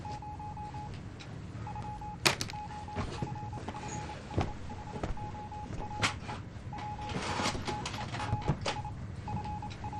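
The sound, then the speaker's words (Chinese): A telephone rings with an incoming call: a mid-pitched electronic tone repeats in long pulses with short gaps, broken by several sharp clicks and knocks. “司令员，韩副长官来电。”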